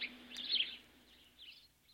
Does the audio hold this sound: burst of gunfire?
no